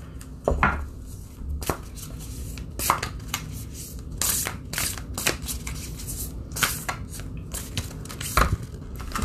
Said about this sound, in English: So I thought, what better way to lift ourselves up by reading, pulling from a card? So I'm going to go ahead and do that and see what we get.